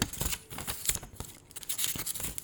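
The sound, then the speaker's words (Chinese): Crisp paper rustles and flicks as pages of a small notebook are turned, a run of quick, dry, fairly quiet swishes and scrapes with no talk. “然后在录的过程中，你们可能会听到我这样子翻页的声音，”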